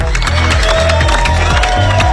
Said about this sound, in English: Hundreds of Bonnie Tyler fans have burst into applause as they watched a procession bringing her coffin home.